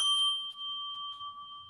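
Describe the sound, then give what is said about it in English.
A triangle chime from a chime set made in Australia is struck once and rings with a clear, steady, bright tone and shimmering upper overtones that fade gently while sustaining throughout. “here I have a lovely set of chimes that were made in Australia that are called the Sonic Geometry chime sets. And a triangle sounds like this.”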